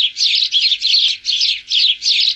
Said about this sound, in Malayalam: മനുഷ്യരെ ചുറ്റിപ്പറ്റി കഴിയുന്ന പക്ഷികളിലൊന്നാണ് അങ്ങാടിക്കുരുവി.